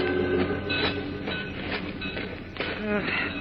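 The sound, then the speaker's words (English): Trains in a railroad freight yard make a loud, steady rumble, with faint clicks recurring through it as the wheels roll over the track. “This is the railroad freight yard.”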